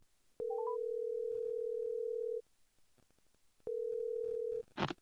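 Telephone being dialed, with three quick stepped beeps at the start over a steady tone. The tone holds for about two seconds, stops, then returns for about a second before a short burst of noise.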